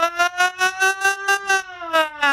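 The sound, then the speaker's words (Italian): An ambulance siren sounds in rapid, even pulses on a bright, steady, slightly wavering tone, with many bursts and one brief longer gap, loud and alone. “che ambulanza oggi, la sirena proprio”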